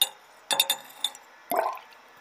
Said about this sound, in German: Ich nehme Harrys Blut, gieße es in den Maßzylinder und teile es in Portionen